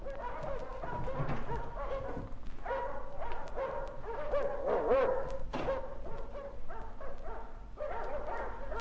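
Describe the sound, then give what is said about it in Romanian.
Dogs barking again and again, many overlapping barks and yips in a steady, loud din with no clear pauses. “De ce-or fi lătrând oare câini?”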